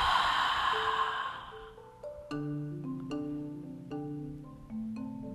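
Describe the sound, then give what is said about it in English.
A big audible exhale through the mouth during a guided breathing exercise, a breathy whoosh that fades over about a second and a half, followed by soft sustained musical tones. “take another full inhalation through the nose. And a big audible exhale out through the mouth.”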